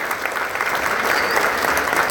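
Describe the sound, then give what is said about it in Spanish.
Applause from a church audience gathered for Mass, a dense, even patter of many hands clapping at a steady level throughout, without pauses or standout voices. “Aplauso bueno. Para todos.”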